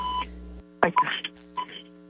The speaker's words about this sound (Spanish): Vámonos con la línea telefónica, aquí está entrando una llamada.